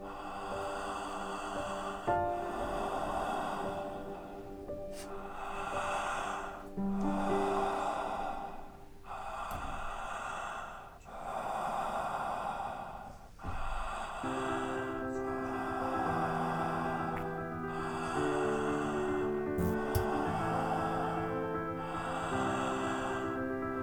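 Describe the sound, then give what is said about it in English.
Slow, deep breaths from a breathing exercise, each airy inhale and exhale rising and fading in a steady repeating rhythm over a soft sustained musical drone. “Inward. Upward. Breathe.”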